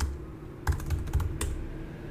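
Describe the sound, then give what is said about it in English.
Typing on a computer keyboard while entering a search term into a medical research database: several quick, light key clicks in a short, uneven burst, alone without talk. “I'm just going to type in, let's do ACL.”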